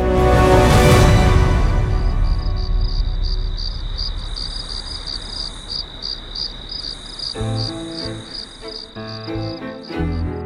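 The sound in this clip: Crickets chirping in a rapid, high, evenly pulsing trill that runs through the whole stretch, with a louder wash of sound at the start and low tones entering near the end.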